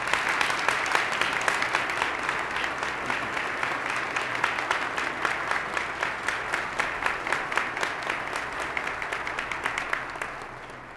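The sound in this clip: Audience applause for an award winner at a seminary ceremony: dense, steady clapping that carries on for about eleven seconds before thinning out and fading away.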